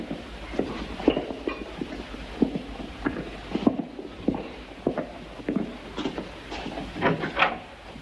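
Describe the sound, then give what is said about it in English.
A door shut behind people entering an office off a school dormitory, among a run of wooden knocks, thuds and shuffling steps, moderately loud with no talk. “Once inside, Father Goddard closes the door behind them.”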